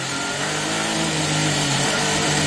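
A McLaren Formula One race car engine gives a loud, continuous, high-pitched roar that holds steady and swells slightly toward the end, with no voices.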